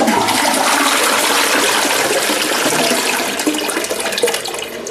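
A toilet flushes with a loud, steady rush of water that fills the whole stretch and eases slightly near the end, with no talk.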